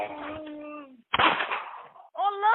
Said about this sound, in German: Wir hören nämlich die Ermordung von einem Mann. Es wird geschossen, der Mann stöhnt auf.